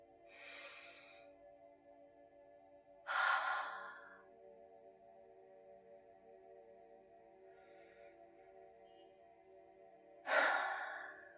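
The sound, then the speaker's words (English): Slow, deep breaths taken during a guided relaxation with eyes closed, a few soft breath sounds spaced several seconds apart, two of them fuller and louder, over faint sustained tones. “Okay, now you can slowly close your eyes and take a few deep breaths.”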